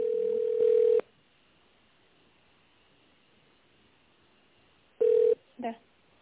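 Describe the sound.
Telephone line tones mark a call being transferred to a company's purchasing department: a steady, mid-pitched tone lasts about a second, then a long quiet gap follows before another short tone and a brief final burst.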